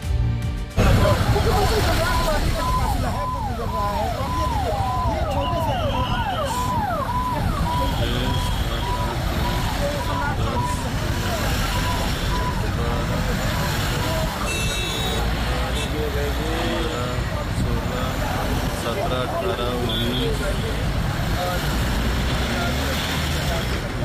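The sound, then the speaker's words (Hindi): A chief minister's motorcade of cars and trucks in India rumbles past with steady engine and road noise, chirping warbling horn or siren tones and beeps, while voices talk throughout. “इनमें एक काफिला है पंजाब के मुख्यमंत्री भगवंत मान का, और दूसरा काफिला बिहार के मुख्यमंत्री सम्राट चौधरी का।”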